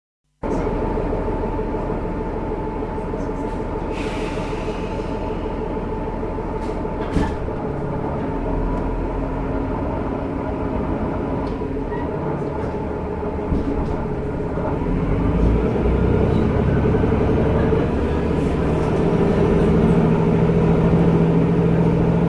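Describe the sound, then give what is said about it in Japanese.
Inside a local Noto Railway train departing Nanao toward Wakura Onsen, a steady low rumble runs with a few faint clicks and knocks, then grows louder and heavier about two-thirds of the way through as the train gets moving. “この能登鉄道の、七尾から、和倉温泉までちょっと車内の出発向けで録音してきましたんで”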